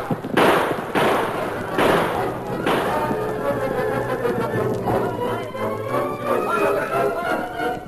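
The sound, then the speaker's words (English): Gunfire from ranchers' guns in a Western radio drama battle, with a few heavy, sharp bursts at the start that give way to a dense, sustained din. “They tumbled from their horses, fought for cover. Desperately, they fought back. But the surprise of the attack and the withering fire from the ranchers' guns put an end to the battle”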